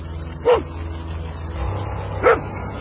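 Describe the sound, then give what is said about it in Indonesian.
A dog barks twice, two short, sharp barks about two seconds apart over a steady low background rumble. “Suara anjing yang tadi aku dengar sekarang makin dekat jaraknya.”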